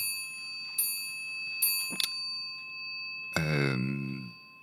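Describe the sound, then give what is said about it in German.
An old family clock that belonged to a great-grandmother chimes. A few short, bright metallic strikes are followed by a fuller ringing tone that fades, all over a faint steady hum. “das ist die Uhr meiner Urgroßoma, die hier gerade geklingelt hat”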